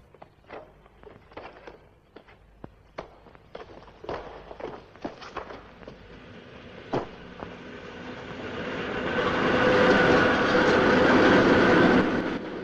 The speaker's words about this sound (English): The men clamber over the fence and find themselves next to a railway junction. Trains rattle past as the men crouch low by the tracks.